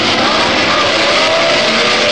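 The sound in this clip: Racing cars, including BRM and Climax-engined machines, roar away at the start of an 80-lap motor race on a 2.65-mile circuit, a loud, dense, unbroken engine roar.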